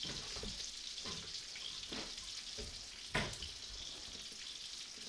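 Bacon sizzles and fries at a Super Bowl party, a steady crackling hiss throughout with a single sharper pop near the middle.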